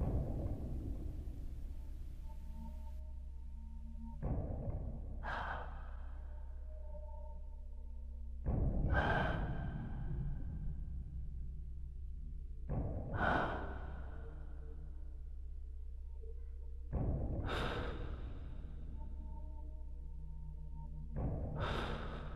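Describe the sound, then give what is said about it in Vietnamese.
Heavy, wheezing breaths come in a slow series, each a rough, gasping surge roughly every four seconds with quiet gaps between them and no talk. “Trong không gian chỉ còn lại tiếng thở khò khè và nặng nề.”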